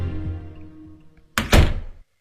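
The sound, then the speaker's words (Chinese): An office door swings shut with a solid, heavy thunk made of two close impacts, following a quiet low hum, then silence. “陈东关上了办公室的门”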